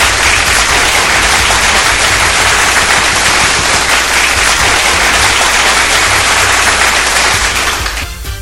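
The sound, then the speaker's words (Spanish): Applause, a dense, loud clatter of many hands clapping that holds steady for about eight seconds before tapering slightly at the end. “Un aplauso, por favor.”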